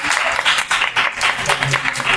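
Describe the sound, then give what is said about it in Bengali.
Loud applause for the winner of a quiz round during a quiz session: brisk, vigorous clapping from a small group, with distinct pulses of hand claps surging and dipping throughout. “Sagnik দে, এবং ওর জন্য একটা জোরে হাততালি অবশ্যই।”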